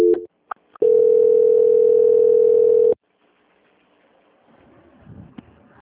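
A steady telephone line tone sounds during a call transfer, holding for about two seconds after a few brief blips, then giving way to near silence with faint noise.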